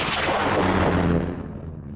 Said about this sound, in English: Yes. Sorry. Launching probe two.